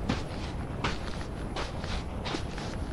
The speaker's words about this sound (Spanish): Llegamos a los médanos. Qué fácil hundirse acá. Camino suavemente.